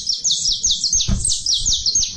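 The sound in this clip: Saffron finch (canário-da-terra) calling: many quick, high, bright chirps repeat in a steady run, with a low rumble beneath and a brief thump near the middle.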